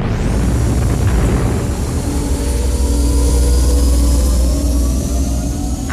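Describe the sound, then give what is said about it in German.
A spaceship's nuclear engines roar at full reverse thrust for a landing on Earth. The rumbling noise is loud, dense and continuous throughout, with faint whining tones gliding slowly through it. “Sofort nukleare Triebwerke auf volle Kraft zurück. Wir landen auf der Erde.”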